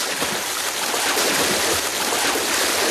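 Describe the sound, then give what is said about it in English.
Staged splashing of a swimmer in a lake: a steady, continuous wash of churning water and sloshing, even in loudness throughout, with no distinct strokes standing out. “Keep swimming! Coach, I've been in the lake since 11 last night.”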